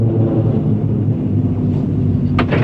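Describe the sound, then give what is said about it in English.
A cable car arriving at a mountain chalet gives a loud, steady low mechanical rumble and hum throughout, with a brief higher scrape near the end. “The cable car arrives at the chalet.”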